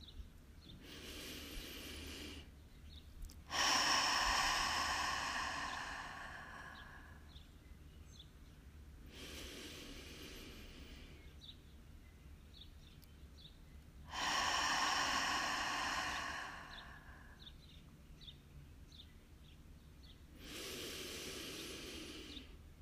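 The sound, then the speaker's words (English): Deep belly breaths during a guided breathwork meditation, drawn slowly in and let out fully: several airy, hissing breath cycles with long, louder exhales and softer inhales, separated by quiet pauses and with no talking. “take three deep breaths into your belly, filling up your sides and exhaling out all the way.”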